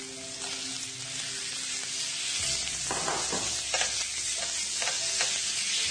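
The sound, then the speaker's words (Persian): Meat sizzles and fries in hot oil with browned fried onions, a steady hiss broken by several scraping stirs. “پیازداغ من الان آماده شده. من گوشت رو اضافه میکنم به پیازداغ.”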